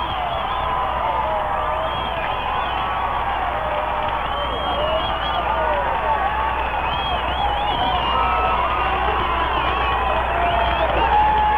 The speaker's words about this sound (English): You can hear the fans.